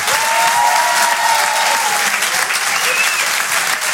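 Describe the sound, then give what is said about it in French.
An audience at a comedy club applauds in a loud, dense, steady roar of clapping that runs unbroken throughout. “Merci beaucoup, faites du bruit pour Guillaume Pau. Pour Fonjo, s'il vous plaît.”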